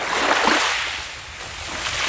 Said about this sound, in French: Capo Orlando, une promenade le long de la mer.